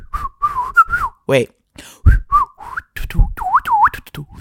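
A person whistles to imitate howling wind, a run of short, wavering whistled notes, several swooping up and down in pitch, broken up by brief breathy vocal sounds.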